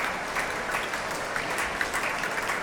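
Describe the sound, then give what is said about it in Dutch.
Concert audience applauding after a performance of Mahler's Fourth Symphony, a steady, dense wash of clapping that holds an even level throughout with no voices rising above it. “Afscheid nemen van een dankbaar publiek dat hier op het podium, naast de trap, opnieuw weer applaudisseert voor deze twee.”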